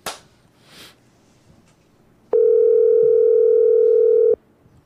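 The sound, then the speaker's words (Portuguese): Telephone dial tone for an outgoing call placed during a live talk show. After a couple of faint clicks, one loud, steady, pure tone sounds alone for about two seconds and then cuts off abruptly. “Eu vou ligar tá. pra ela direto aqui já.”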